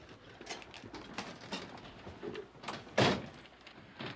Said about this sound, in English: In Golden, Josh breaks the glass in the lawyer's door. And he and Beth slip inside.